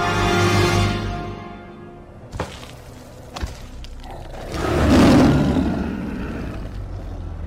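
Lions roar in a lions' den: a low growl fades at the start, two sharp knocks sound, then a deep, loud roar swells and slowly dies away.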